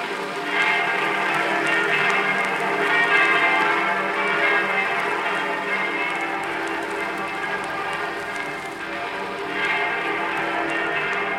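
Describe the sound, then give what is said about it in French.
Church bells ring at 22:25 to mark the Liberation of Paris. The dense, continuous clangour of overlapping peals stays loud and steady for the whole stretch. “Ce sont les cloches de la libération qui sonnent.”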